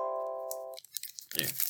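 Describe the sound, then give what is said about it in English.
Paper gift certificates being crunched: after a sustained tone cuts off, a few faint crackles lead into a brief, dense burst of crinkling paper, quiet overall. “You hear that? That's the sound of their gift certificates they sent as prizes.”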